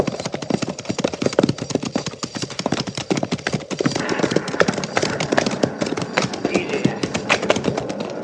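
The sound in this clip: Horses of a cavalry patrol clip-clop as they ride, with many quick, crisp hoof beats in an uneven but steady rhythm, loud and continuous throughout.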